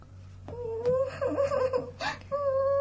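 A sleepy, tired child cries and whines at night, with wavering, high-pitched, drawn-out wails and whimpers that come in a few bursts separated by short breaks.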